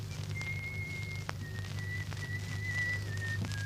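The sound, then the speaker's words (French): A man whistles a tune softly while undressing, moving between a washroom and a bedroom. Long held whistled notes sit over a low steady hum, with a few faint knocks in between. “Il se déshabille, allant du cabinet de toilette à la chambre, en sifflotant.”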